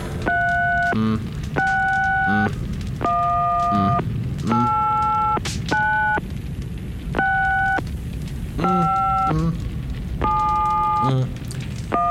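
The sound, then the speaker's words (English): Tones of a number being dialed on an old telephone: a series of about eight short, steady electronic beeps, evenly spaced and differing slightly in pitch, over a low background hum. “So, let me just ring up the old telephone here. And let's dial the number.”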